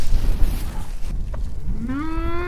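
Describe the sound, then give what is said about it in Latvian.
A cow moos once from a mottled, very varied herd: a loud, low call that rises in pitch and then levels off, over rustling, breathy background noise. “Jums tas ganāmpulks ir gana raips, nu ļoti liela dažādība.”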